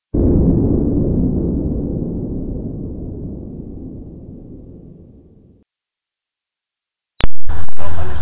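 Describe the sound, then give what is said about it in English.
A loud, rumbling explosion effect of missiles striking a target fades slowly over about five seconds. A silent gap follows, then a short sharp burst and a final stretch of noise. “I'm just going to paint you with a laser target and shoot the missiles at you.”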